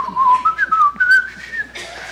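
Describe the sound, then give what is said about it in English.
Whistled Irish Spring soap jingle: one person whistles a short, bright tune of several clear notes that step up and down, with no other sound. “I come out of there feeling like, da, da, da, da, da, you know, whistling the Irish Spring song.”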